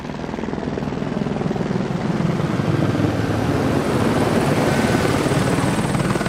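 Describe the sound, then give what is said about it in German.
A police helicopter flies in a wide arc over a training centre before landing on a nearby alpine pasture. Its rotor drone is loud and steady throughout, with dense, rapid chopping and no pauses. “Ein Polizeihubschrauber fliegt im großen Bogen über das Ausbildungszentrum, bevor er in der Nähe auf einer Alm landet.”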